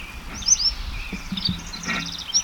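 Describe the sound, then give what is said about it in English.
A bird sings in short, high chirps and thin whistled notes, fairly faint over a low, steady background rumble. “Bird number one is singing exceptionally well now.”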